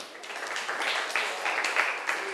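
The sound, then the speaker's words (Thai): Students in a class applaud a classmate after a presentation. The clapping is fairly faint and continuous, a soft patter of many hands that stays at an even level throughout. “ขอบคุณมากเลยค่ะปรบมือให้เพื่อนหน่อย”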